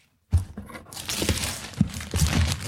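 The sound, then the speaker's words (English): Gift wrapping paper crinkles and tears as a large, heavily taped present is unwrapped, giving a soft continuous rustle with a few sharper crackles. “Okay, now we're getting into the thing. I'm gonna unwrap it. We'd love to do the crinkle.”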